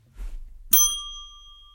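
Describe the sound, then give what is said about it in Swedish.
A single bright bell chime dings after a soft low thump, its clear tone ringing out and slowly fading. “nu får du plinga.”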